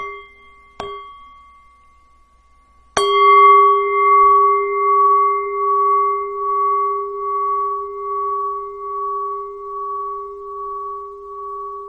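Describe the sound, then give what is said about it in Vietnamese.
A Buddhist meditation bell is lightly tapped once, then struck firmly once. The strike leaves a long, bright, sustained ring with a slow wavering pulse that decays only gradually. “chúng ta nghe tiếng chuông, chúng ta tĩnh tâm trong một phút.”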